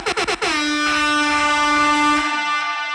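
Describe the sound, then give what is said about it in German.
Air horn sound effect: four quick, clipped blasts, then one long, loud blare whose pitch sags downward as it trails off at the end. “Nochmal Airhorn.”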